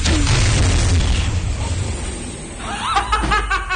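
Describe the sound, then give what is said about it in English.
A spaceship's spent-fuel cleanup burst explodes through the forward venting tubes in a loud, roaring blast that rumbles steadily for over two seconds, then eases as voices break in at the end. “Run a spent fuel cleanup burst through the forward venting tubes. That could destroy the ship. Good to know. Do it.”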